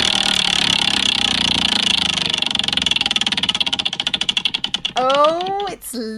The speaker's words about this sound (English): Well, to be honest, I'm just going to spin the wheel and see what happens.